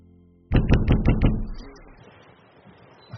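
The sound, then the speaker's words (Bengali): Five rapid knocks on a door ring out as loud, sharp thuds in quick succession. A low, fading rumble follows them. “ঘুম ভাঙল দরজা ধাক্কানোর আওয়াজে।”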